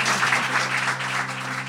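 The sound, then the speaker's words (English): Audience applause at the close of an interview, a dense, steady patter of many hands clapping together without a pause. “please join me in giving a round of applause to Ryan Popple”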